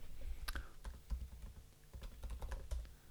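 Computer keyboard typing as someone writes something down: many quick, irregular keystrokes clatter across the whole stretch with no voices.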